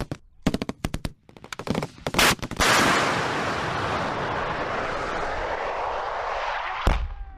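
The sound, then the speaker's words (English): Bombs drop and explode during combat in Ramadi, Iraq, in 2006. Several sharp bursts of gunfire give way to a loud, sustained roaring rumble that holds for seconds, then a single sharp blast near the end. “confirm that's bombs dropping on Man's Drack”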